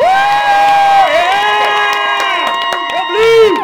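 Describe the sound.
Loud audience cheering and whooping for the blue team at a live team game event, a sustained burst of excited voices lasting a few seconds.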